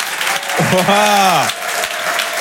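An audience cheers and applauds as a comedian walks on at a French stand-up show. Steady clapping runs throughout, and a long, falling, whoop-like shout rises out of it midway.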